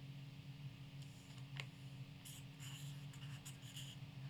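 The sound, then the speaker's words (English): A pen scratches faintly across paper while someone draws a guitar with an amp: soft, irregular scratchy strokes in short bursts over a low steady hum. “I see you're drawing a guitar. You've added an amp.”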